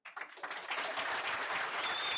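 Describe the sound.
Audience clapping at an addiction recovery group meeting: dense, steady applause that starts after a brief silence and quickly fills out, holding at an even level to the end.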